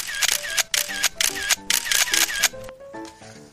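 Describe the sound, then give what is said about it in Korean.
Camera shutter clicking while photos are taken in Hallstatt, a rapid run of many sharp clicks in quick succession. “저 세로로 몇 장만 더 찍을게요.”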